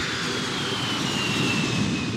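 Steady, unbroken engine roar of an airplane in flight to Washington, a broad even drone filling the cabin without pauses or changes in level.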